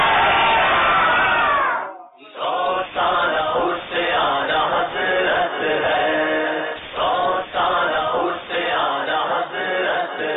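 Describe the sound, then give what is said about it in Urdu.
A crowd chants the religious slogan "Faizan-e-Ala Hazrat" at a quiz contest. Loud, voiced shouts rise in several repeated bursts, with a brief drop near the start before the group chanting resumes. “نعرہ لگاتے ہیں, فیضان اعلی حضرت.”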